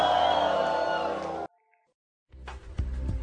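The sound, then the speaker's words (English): A church audience at a Sunday Valentine service shouts praise in a loud roar of many voices cheering and yelling. It cuts to a sudden near-silent gap, then the crowd's noise swells back in. “lift your voice and give the Lord a loud shout of praise? Come on, one more time, lift your voice and give him a scream of”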